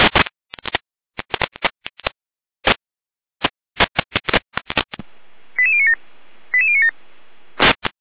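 Emergency service radio alerting tones for a German relief unit's call-out: a rapid series of short, sharp tone bursts, then a hissing carrier carrying two stepped tone sequences, and one final burst.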